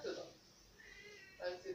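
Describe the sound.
A house cat meows a few times in quick succession, faint and thin, with short pauses between the cries.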